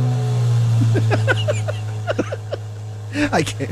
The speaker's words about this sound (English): Start up the new Corvette in my garage today.